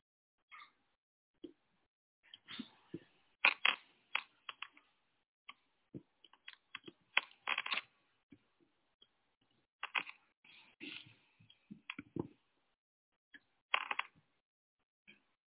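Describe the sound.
Keys clack on a computer keyboard in faint, irregular bursts, with quick clusters of keystrokes broken by short pauses throughout.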